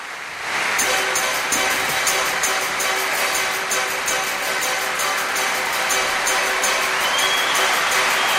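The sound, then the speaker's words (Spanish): Crowd noise from spectators at the Ricardo Tormo circuit during a NASCAR event. A loud, dense, steady roar swells in after a brief quieter opening and holds without letting up. “Qué bien suena esto del público, ¿eh?”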